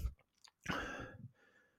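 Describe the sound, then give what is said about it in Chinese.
A sip of liquor: a couple of faint mouth clicks, then a short breathy slurp that trails into a quiet exhale. “等一下 喝一口酒”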